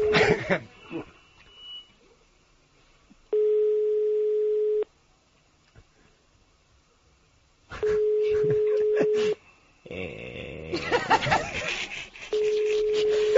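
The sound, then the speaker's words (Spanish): A telephone line rings out after a number is dialed: a steady low-pitched tone of about a second and a half recurs three times, the last cut off, separated by silences and stretches of people talking. “Está marcando.”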